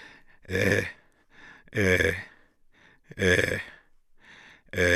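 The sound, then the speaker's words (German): An old man groans and moans hoarsely and inarticulately in a few drawn-out, rasping voiced bursts separated by pauses filled with softer breathy sounds. “hört man Gottvater unartikuliert rau stöhnen und jammern.”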